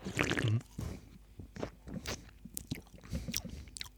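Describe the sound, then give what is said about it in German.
Someone drinking Hermann cola makes wet, squishy mouth and swallowing noises. A few short gulps and smacks come at irregular intervals, moderately loud, with a brief louder burst at the start. “Ah, du trinkst schon? Ich trinke schon.”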